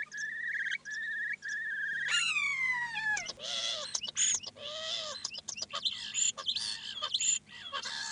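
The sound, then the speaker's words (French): A starling living around a parking area mimics a car alarm. It repeats electronic-like tones, fast upward sweeps and abrupt pulsing phrases, mixed with sharp chirps that shift from one pattern to the next. “en l'occurrence là c'est une alarme de voiture qui reflète qu'il était localisé autour d'un parking.”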